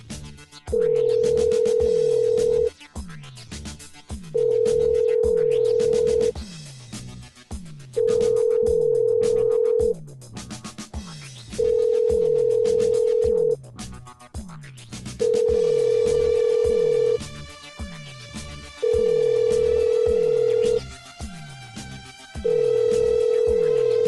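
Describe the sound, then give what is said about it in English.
Telephone ringing: seven long, steady mid-pitched tone bursts, evenly spaced with short gaps between them. The ring is fairly loud and sounds alone, with no talking. “Phone's ringing forever.”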